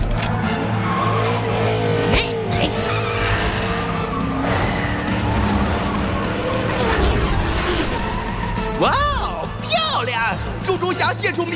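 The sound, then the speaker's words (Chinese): Race cars skid with squealing tires over a dense, steady roar of engines, and the squeals rise and fall sharply near the end, with voices heard over the racing noise. “比赛来到第13圈，场上情况不妙啊！乒乓车队和飞翔车队接连发生碰撞”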